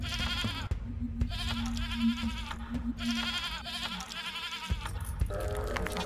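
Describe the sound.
Goat bleating in a few long, wavering harmonic calls separated by brief gaps, loud and sustained over a steady low hum.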